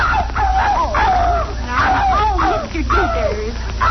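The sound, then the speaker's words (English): A dog yelps and whimpers as its tail is stepped on, giving several high, wavering cries that rise and fall in pitch over a constant low rumble. “Don't step on Daisy's tail.”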